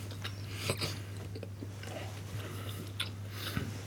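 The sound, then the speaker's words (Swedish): Soft chewing and biting of Swedish Christmas ham with a thin fat rim and mustard glaze, faint irregular crunches over a steady low hum. “nu prövar jag här den vanliga svenska julskinkan. Med en fin liten fettkant med senapsgriljering på.”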